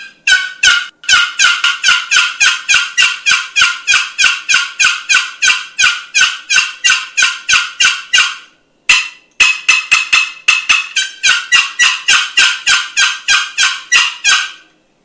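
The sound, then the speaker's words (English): Loud, aggressive turkey yelps and cutting from a box call, sharp and raspy, many rapid notes in a steady run with one short break near the middle before the series resumes. “eventually I'm going to break out this box call, and I'm going to give some loud, aggressive yelps, a little bit of cutting, and go right back into some yelps, kind of like this.”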